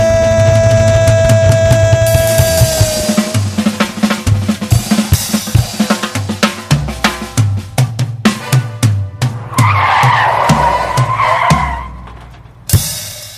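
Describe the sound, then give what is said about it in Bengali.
Car brakes screech and tyres skid at the close of a music album track. A long, wavering high squeal rises out of rhythmic instrumental music with percussive hits, and a short final burst follows. “এই ব্রেকের আওয়াজটা শোনার পর অনেকেই কয়েক minute হয়তো ভাববে কেন আমার অ্যালবামটা ব্রেক কষে শেষ হলো।”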